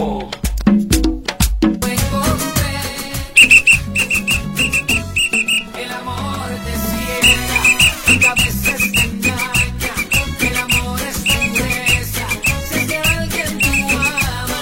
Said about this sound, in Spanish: oigan esto. Y con silbato.